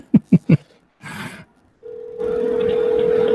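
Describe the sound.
A telephone call being placed: three quick taps like keypresses, a short burst of noise, then a steady, unbroken mid-pitched line tone that holds to the end over a layer of hiss, with no voices.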